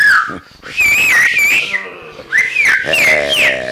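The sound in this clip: A man whistles a call to gather people, heard as a bright, tuneful whistle in a few rising and falling phrases, loud and steady, with a short pause near the start.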